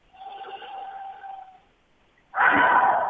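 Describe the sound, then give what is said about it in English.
A big, deep breath during a guided tapping exercise: a soft, slightly voiced inhale lasting over a second, then a short pause, then a loud, breathy exhale. “Big, deep breath.”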